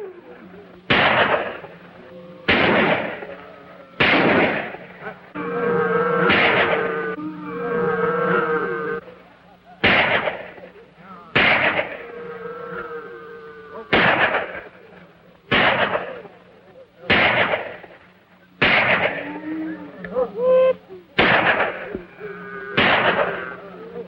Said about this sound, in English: Concealed in a thicket, two of the men fire at the cabin.